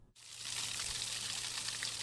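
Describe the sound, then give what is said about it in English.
Water rushes steadily in a temperate rainforest, a dense hissing flow that begins after a brief silent moment and then holds an even, full level to the end. “Water coming out of a temperate rainforest”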